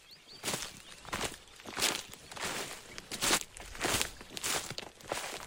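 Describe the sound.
Footsteps crunching along a forest trail during a hike through Coco Hill Forest in Barbados, in a steady rhythm of many dry, rustling steps with no talking.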